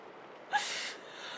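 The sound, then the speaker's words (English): A brief breathy yawn, a single soft rush of air lasting under half a second, faint and heard alone without any talk. “I'm yawning again.”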